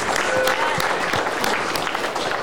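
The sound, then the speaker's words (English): A church audience claps together as a clap offering, a dense, steady wash of applause with some crowd noise mixed in, fairly loud throughout. “It's a clap offering.”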